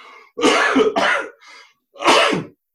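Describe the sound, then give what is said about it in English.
One person gives a few harsh, loud coughs in a short fit, the bursts separated by brief pauses, with no talk. “Hopefully, you can edit that cough out.”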